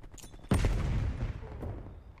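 Gunfire in a video game: a sudden loud burst of shots, then sustained dense rattling fire and rumble that slowly fades, with no voices.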